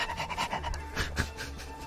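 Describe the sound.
Dog panting during a tabletop role-playing game session, with quick, rhythmic breaths repeating steadily over a noisy background.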